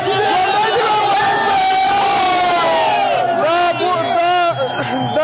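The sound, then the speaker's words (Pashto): A large crowd of young people and children chanting and shouting slogans at night outside the cricket board in Kabul, celebrating a historic cricket win over Pakistan, with many overlapping voices forming a loud, continuous roar. “په پلازمینه کابل کې د کرکټ بورډ مخ ته تیر شپه یو شمیر ځوانان او ماشومان راټول شوي او د پاکستان پر وړاندې د کرکټ د تاریخي بری په خوشحالۍ کې ژوندې دي وي افغانستان شعارونه ورکوي.”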